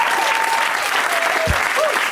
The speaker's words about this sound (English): Round of applause for all these people.